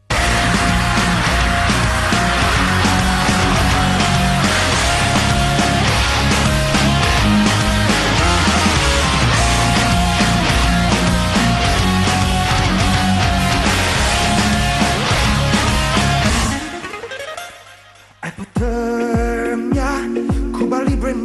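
A loud, dense song by an Italian band blends viking metal with reggaeton rhythms and plays without a break. Near the end the sound drops briefly, then comes back in.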